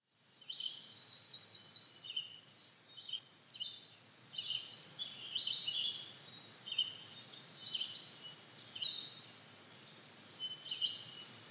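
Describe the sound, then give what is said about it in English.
Tree Swallow song opens with a loud burst of high, liquid twittering, followed by a series of softer gurgling chirp phrases spaced apart, the bird heard alone. “Tree Swallow.”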